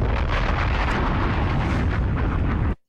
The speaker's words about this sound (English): Pop it, yeah! Bombs!